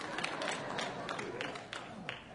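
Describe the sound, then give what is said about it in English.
Singers clap their hands in a steady rhythm, about three sharp claps per second, soft and faint throughout. “All the singers are clapping right now.”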